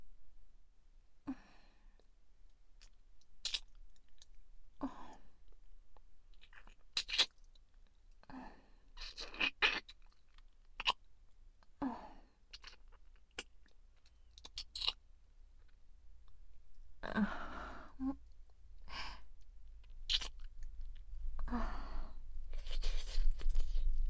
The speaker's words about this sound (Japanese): それではお顔舐めさせていただきますね。